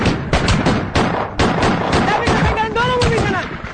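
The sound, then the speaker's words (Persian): Gunfire from troops shooting at approaching Iraqi tanks: many loud, sharp shots crack in an irregular stream, with voices shouting among the bursts. “نیروهای خودی به طرف اونا تیر میندازن تا مانع پیرویشون بشن.”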